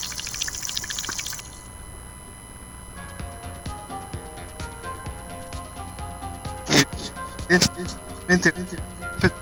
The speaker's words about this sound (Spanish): ¿Por qué surgen de las napas internas del acuífero guaraní estas burbujas?